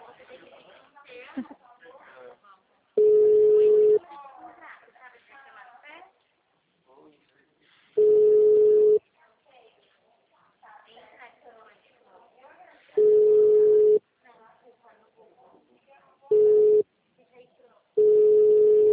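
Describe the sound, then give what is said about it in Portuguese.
A phone line rings unanswered on a call to city hall, with low, steady electronic ring tones of about a second each recurring five times. A person talks in the gaps between the rings. “Olha, eu tô 7 minutos na ligação, ninguém me atende. Da prefeitura, você acredita?”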